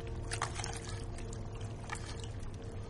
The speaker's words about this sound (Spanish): la mona hierve unos despojos en una concha de molusco